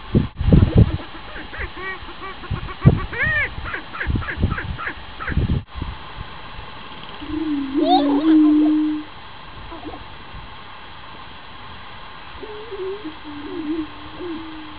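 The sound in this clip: A low, booming bird call, soft and hooting like a mourning dove's coo, sounds in two short phrases after a few seconds of talk, faint against a quiet hiss.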